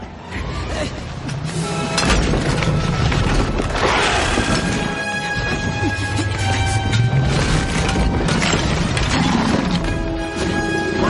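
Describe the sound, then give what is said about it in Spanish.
Film sound effect of a Horntail dragon smashing a tower window and its small roof in a fantasy scene: sustained loud crashing, booming and shattering debris, with a voice speaking over the din. “El dragón destroza la ventana con el tejadillo y Harry cae escoba en mano.”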